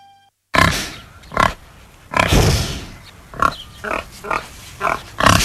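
A pig grunts in a series of short, low, rough bursts. The grunts are irregularly spaced and fairly loud, with quiet gaps between them.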